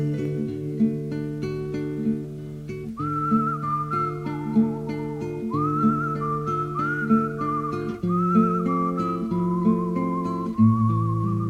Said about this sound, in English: what's with that whistling?